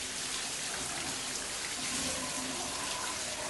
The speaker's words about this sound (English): Ribbons of water spray down evenly from the octagonal fixture.